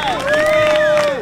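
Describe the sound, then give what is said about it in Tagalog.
A crowd applauds, clapping briskly and continuously, while a sustained cheering voice rings over the claps for the whole short burst. “Okay, dagang salamat. Kaayos sa inyohang pagpamalakpak.”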